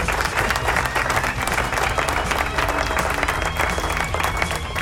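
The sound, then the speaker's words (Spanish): Audience applause: many hands clapping in a dense, steady wash that lasts the whole time, with no talk over it. “¡Aplauso!”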